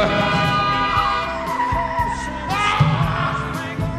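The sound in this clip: Car tires skid in a long, high-pitched squeal, loud and wavering in pitch, layered over a rough engine rumble.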